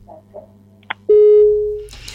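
Telephone call-connecting tones: a few faint blips, then a sharp short beep, then one long steady mid-pitched tone lasting under a second, followed by hissing line noise.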